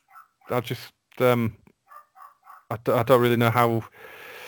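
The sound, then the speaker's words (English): A dog in a nearby house barks in loud, harmonic bursts, a few barks early on and then a longer run of rapid barking, with faint yips in between. “Sorry if you can hear a dog in the background. There's one in a nearby house has decided to go mental.”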